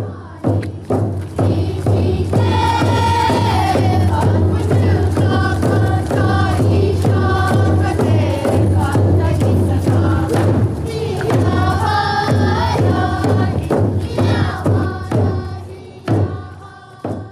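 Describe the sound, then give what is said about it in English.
A Tlingit culture and language group performs at Goldbelt's 50th anniversary celebration in Juneau. Loud, steady drumbeats pound throughout under group singing, with a brief drop near the end before the beat resumes. “That was Juneau's Tlingit Culture Language Literacy Program performing at Goldbelt's 50th celebration yesterday.”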